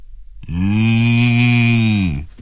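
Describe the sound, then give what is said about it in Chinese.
A cow moos over a telephone call in one long, steady, low moo lasting about two seconds, loud and alone with no talk. “一声清晰的牛叫声从电话里传了出来，刘丽丽很惊讶”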